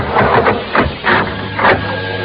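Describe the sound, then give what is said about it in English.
An elevator runs with a mechanical whirring rumble that swells in regular bursts, steady and moderately loud throughout. “Isn't the elevator working tonight? You want to go up in the elevator, Mom?”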